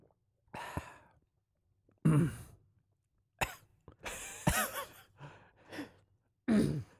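A man coughs after a gulp of beer goes down the wrong way, giving several harsh, raspy bursts of coughing and throat clearing in uneven clusters with short breathy pauses between them.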